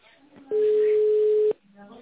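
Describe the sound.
A telephone ringing tone plays while a call is transferred to a secretary: one steady, loud beep about a second long, with a voice just before and after it.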